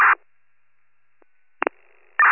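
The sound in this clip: Telephone call tones as a call is placed: a few short electronic tone bursts separated by silence, with one tone at the start, two quick blips partway through and another tone at the end.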